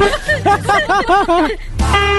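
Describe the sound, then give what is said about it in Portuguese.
A strange-sounding horn toots a rapid run of short, warbling blasts, each bending up and down in pitch. A steadier, sustained tone follows. “mas que buzina é essa, cara? Que buzina estranha”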